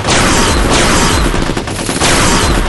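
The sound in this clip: Heavy gunfire from a jungle firefight in an audio drama: dense, rapid shots pile up into a loud, unbroken volley.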